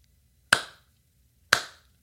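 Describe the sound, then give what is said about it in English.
A lone person in the back row of a movie theater starts a slow clap: two sharp, crisp claps spaced about a second apart, each ringing out alone in otherwise quiet surroundings. “somebody in the back row started a slow clap”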